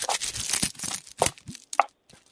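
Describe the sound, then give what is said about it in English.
Scotch tape is pulled and torn in a few short, crackly rips separated by brief pauses, each a dry burst of crinkling. “Here's the sound of scotch tape.”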